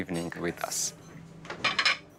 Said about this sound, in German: Wir decken besonders schön ein. Spezielle Teller, elegante Servietten, guter Wein.